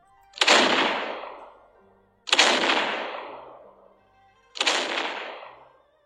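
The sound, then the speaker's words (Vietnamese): Naval cannons fire from an old fleet of warships at sea in three heavy booms, evenly spaced about two seconds apart. Each has a sharp crack followed by a long, fading rumble, with no voices. “Tiếng pháo chói tai vang lên, tựa như là sấm động giữa trời quang.”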